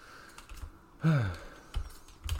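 Keys clatter on a computer keyboard during quick editing, a short run of light taps that is fairly quiet and heard alone without talk.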